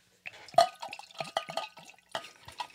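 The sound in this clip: Drinking water being poured: a faint, irregular run of small splashes, drips and gurgles, with no voices.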